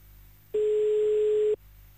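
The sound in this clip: A telephone ringing tone on an outgoing call: one steady, mid-pitched electronic tone lasts about a second, loud and alone over a faint background hum.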